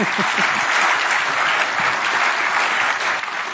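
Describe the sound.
Audience applause welcoming a speaker to an Actuaries Institute presentation, a dense, even roar of clapping that holds steady throughout.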